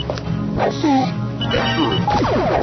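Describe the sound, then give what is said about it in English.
Video game effects as poison needles are thrown at a guard: sharp thwacks and crashing impacts over a dense, busy electronic background. “I'm throwing poison needles at them. And I'm running away, and you will die shortly.”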